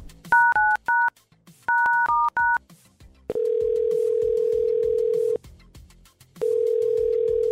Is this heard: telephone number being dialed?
yes

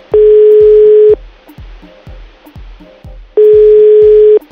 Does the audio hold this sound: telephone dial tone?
yes

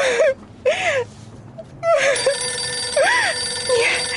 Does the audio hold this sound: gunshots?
no

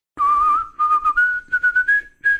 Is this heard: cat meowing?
no

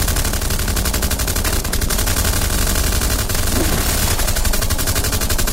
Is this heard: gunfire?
yes

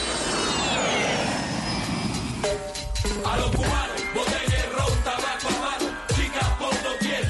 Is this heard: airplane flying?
yes

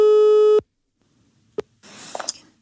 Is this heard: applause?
no

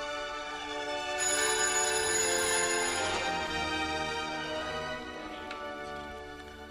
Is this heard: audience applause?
no

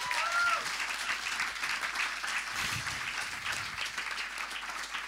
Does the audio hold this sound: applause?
yes

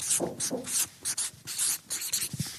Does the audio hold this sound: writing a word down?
yes

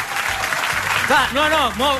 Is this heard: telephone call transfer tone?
no

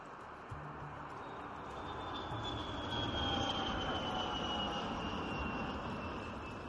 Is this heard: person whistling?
no

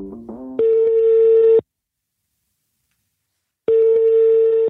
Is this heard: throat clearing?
no

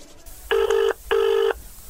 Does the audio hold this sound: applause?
no

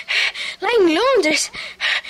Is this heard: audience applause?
no

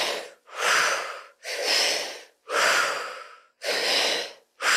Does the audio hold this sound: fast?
yes

